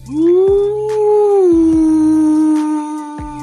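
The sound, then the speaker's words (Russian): A person imitates a long howl, one sustained fairly loud wail at a steady mid pitch. It rises quickly at the onset and dips slightly partway through, with faint higher overtones above it. “Раздался вой, словно откуда-то издали. Ответил ему такой же.”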